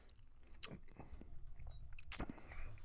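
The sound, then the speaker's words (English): Chewing on Twizzlers licorice candy right at a microphone: soft, wet biting and squishing, with a few sharper crunchy bites standing out, fairly faint, with no talk. “don't worry, I'm not going to chew in the microphone the whole time. I'm probably going to quit after this one because I didn't realize how loud that would actually be.”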